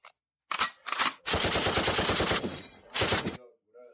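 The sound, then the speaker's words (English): Machine guns firing in loud rattling bursts, heard alone: a few short volleys, then one long sustained stream of rapid shots, then one more brief burst before silence. “Matter of fact, machine guns are going off.”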